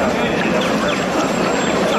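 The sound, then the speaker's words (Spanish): Thousands of people march through Madrid streets at night in tribute, making a dense, steady murmur of crowd noise and shuffling footsteps that holds an even loudness throughout. “Este es el sonido de anoche en Madrid, donde miles de personas la homenajearon en una marcha multitudinaria, desde la acampada de Sol hasta su casa, recorrido en silencio, aunque interrumpido en ocasiones por algunos cánticos.”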